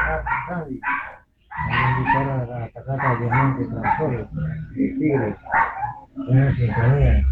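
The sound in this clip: A dog barks repeatedly under people talking. The yips and barks are mixed in with the speech and come through loudly throughout.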